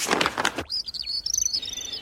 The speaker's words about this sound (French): Il y a un grand arbre, et sur ce grand arbre sont perchés des dizaines d'oiseaux de toutes les couleurs.